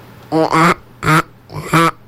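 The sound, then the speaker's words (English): A person imitates a duck call with their voice at an annual duck calling contest, giving four loud, nasal quacks in quick succession. “Annual duck calling contest. I'm going to try a duck call.”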